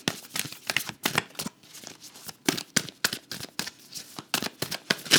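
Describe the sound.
A Wild Unknown tarot deck being shuffled, with many rapid, papery card flicks and riffles in an uneven rhythm and no talk.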